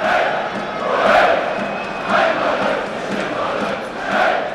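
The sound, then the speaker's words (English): German RB Leipzig supporters roar inside a stadium in Warsaw during a match against Shakhtar Donetsk. Their loud, massed chanting swells and eases in a few waves. “So plenty of Germans have made the trip over, and they are the ones who are making most of the noise inside the stadium.”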